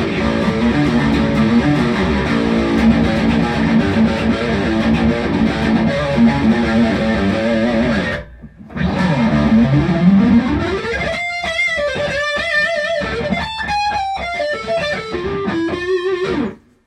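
Guitar amplifier with vintage-style gain distortion: a thick, distorted chord rings for about eight seconds and cuts off briefly, then a run of separate overdriven notes follows. No talk.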